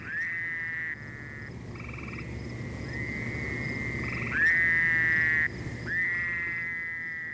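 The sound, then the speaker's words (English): A Fowler's toad calling: a series of nasal, buzzy, drawn-out calls, each held for about a second, some slightly louder, following one another with short gaps. “she's no amphibian expert, but believes we heard Fowler's toad”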